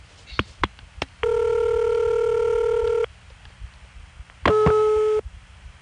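An automated telephone system beeps: a few quick clicks, then a long, steady electronic tone of about two seconds, a short pause, and a second shorter beep.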